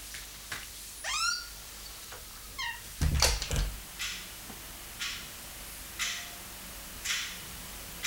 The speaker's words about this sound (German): machen Sie die Tür zu